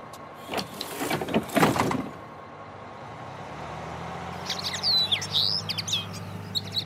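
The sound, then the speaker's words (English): Newly hatched chicks in a nest give high, thin chirps in quick, overlapping bursts during the second half, after some earlier rustling and a low steady hum. “Sounds like the rest of the eggs have hatched.”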